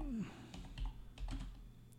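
Computer keyboard typing as a prompt is entered, with several scattered, crisp keystrokes clicking out at an uneven rhythm over a low hum.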